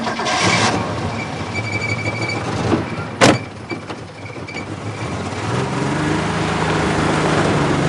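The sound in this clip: A car door shuts as a man gets into a car: a single brief, sharp thump over steady low rumbling noise.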